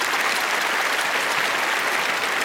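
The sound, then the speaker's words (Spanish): Applause from a standing, excited audience at a stage performance in a concert hall, a dense, steady wash of many hands clapping, loud and continuous with no voices above it. “El público emocionado se puso en pie cuando presentó a María Rubiteiko rompiendo en fuertes aplausos.”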